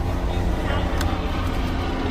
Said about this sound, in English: That's a helicopter going by.